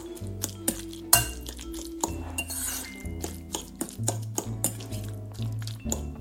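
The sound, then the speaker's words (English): Utensils clinking against a bowl as avocado salad with lemon and pepper is mixed, giving many sharp, irregular clinks and taps over a low, steady background tone. “I'm gonna give this another mix.”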